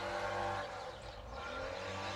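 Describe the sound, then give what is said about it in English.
A car accelerating and shifting into second gear gives a faint, steady engine drone with a brief dip in level partway through. No one speaks. “Oh, he tried. He tried. No, he almost missed second gear.”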